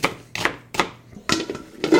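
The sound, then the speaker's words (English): A knife chops onions in a kitchen, giving a few sharp, separate strokes at an uneven pace, each a crisp percussive hit with short quiet gaps between them. “I'm going to chop up some onions.”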